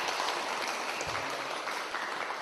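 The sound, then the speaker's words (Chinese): Faint applause from the audience at the close of a Buddhist dharma talk, a soft continuous patter of many hands clapping at a low, even level. “大家唔好为我鼓掌，要鼓掌一个系要俾阿弥陀佛鼓掌，阿弥陀佛多谢你。再一个为我哋自己鼓掌”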